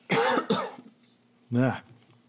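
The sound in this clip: Coughing and throat clearing from someone with oatmeal stuck in the throat after eating: three short, harsh voiced bursts, two close together and a third after a brief pause, with no talk in between.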